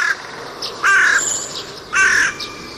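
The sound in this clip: A man's voice imitates a crow cawing, giving two loud, harsh, drawn-out caws after a brief clipped one at the start, with no other talk.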